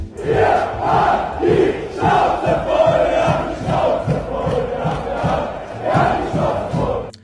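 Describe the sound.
A large demonstration crowd chants and shouts in a loud, steady rhythm, the many voices rising in regular pulses with brief dips between phrases.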